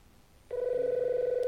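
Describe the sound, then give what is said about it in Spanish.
A telephone rings with a steady electronic trill that starts abruptly after near-silence and holds at even loudness to the end, with a fast, fine pulsing running through it. “Contesta al teléfono, Luis Palao”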